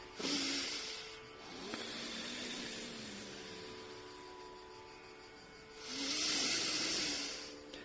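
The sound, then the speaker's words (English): Slow, deep breathing, with a breathy hiss swelling at the start and again near the end as air is drawn in and let out, faint overall, over a quiet, steady tonal hum. “We will just breathe, huh? Deep inhale. Deep exhale.”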